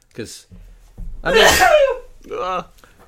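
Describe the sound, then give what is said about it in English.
A single sneeze: a brief sharp intake, then a loud, broad burst about a second long, followed by a short voiced sound. “That was a sneeze.”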